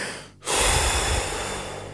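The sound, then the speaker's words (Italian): A deep breath: after a brief hush comes one long, airy rush of breath that starts abruptly and stays full and steady, easing only slightly toward the end. “Faccio un respiro.”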